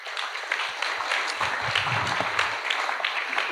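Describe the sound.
Audience applause welcomes a guest to the stage at a church service, a dense, steady wash of many hands clapping that holds at an even loudness throughout without any voices.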